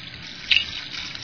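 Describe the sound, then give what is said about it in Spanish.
An Ecuadorian rain stick imitating a waterfall gives a soft, continuous rushing hiss like flowing water. It stays faint and steady, with one brief brighter flick near the middle and no voices. “Esta es una cascada o palo de lluvia también.”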